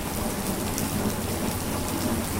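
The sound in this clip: Steady rain falls on a hurricane-damaged home in Callaway, near Panama City, Florida, a dense, even hiss of drops that stays constant throughout, with no voices.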